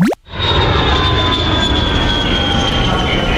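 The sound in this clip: Airplane taking off, a loud, steady engine roar with a sustained high whine that starts after a brief dip at the very beginning and holds at full strength to the end.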